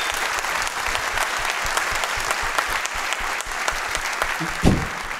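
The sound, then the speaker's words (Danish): Audience applause from a live crowd cheering hosts just nominated for radio program of the year: dense, steady clapping that holds at an even loudness for several seconds. “Så er I ikke søde at give dem en hånd for det?”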